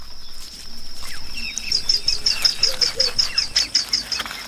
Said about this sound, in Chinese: 犀鸟的幼雏刚刚孵化出来，它们相隔两天破壳，眼睛还没有睁开，需要完全依赖父母。